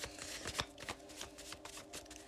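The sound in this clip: Tarot cards are shuffled in many quick, crisp riffling bursts that follow one another in a steady rhythm; the shuffling is quiet and heard alone.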